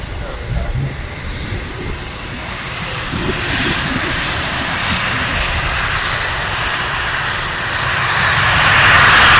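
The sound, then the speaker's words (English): A Typhoon fighter jet taking off: a broad, roaring engine noise that holds steady and then swells louder toward the end. “This is the typhoon taking off.”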